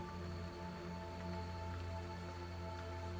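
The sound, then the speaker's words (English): Heavy rain falls outside as a faint, steady hiss that stays unbroken for about three seconds, with a low hum beneath it. “Is it raining outside? Yes, it is raining quite heavily at the moment.”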